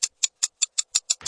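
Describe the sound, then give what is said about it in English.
A clock ticks in a crisp, even rhythm: seven sharp, bright ticks about a fifth of a second apart, followed by a brief, noisier mechanical burst at the end. “Or feel as urgent as a ticking clock.”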